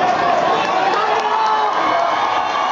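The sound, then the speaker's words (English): An audience cheers loudly for a competitor at a contest, with shouts and whoops over a dense, steady crowd roar that keeps an even level from start to finish. “But the audience today is on Alejandro's side. They shout his name and then they break into a chorus of Salvador, Salvador.”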